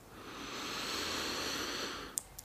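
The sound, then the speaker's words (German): A deep breath drawn in during a guided relaxation exercise. It is a long, steady breathy hiss that swells and then eases over about two seconds. “nimm hier jetzt noch mal drei tiefe Atemzüge tief ein”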